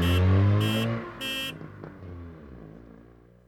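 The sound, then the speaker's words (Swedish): A car drives off after three short honks of its horn, its engine rumble carrying on and gradually fading. “Nu åker i alla fall jag upp till Santos och byter mina däck.”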